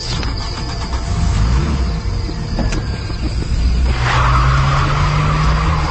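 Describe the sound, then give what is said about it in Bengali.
A car speeds along at night with tyres squealing and skidding over a steady engine roar, the screech swelling louder in the second half. “গাড়ি আগুনের মতো চলছে”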